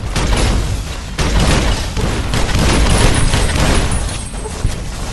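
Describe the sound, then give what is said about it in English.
Gunfire in the Fallout video game during a fight with invisible night stalkers in a large cavern: a dense, loud, steady barrage of noisy shots and booms that runs without a break. “I can't at all see what I'm firing at”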